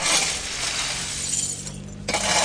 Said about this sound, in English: People come out to sweep up the broken glass from the missile strikes that hit overnight.